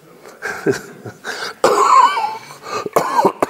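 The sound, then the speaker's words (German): Repeated coughing and throat clearing during a Bible study session, a series of harsh, uneven bursts of varying loudness, some short and one longer fit, heard alone without talk. “Entschuldigung, unser Videomann wird ein bisschen Mühe haben, hier die ganzen Hüsterchen rauszuschneiden, aber das schafft er schon.”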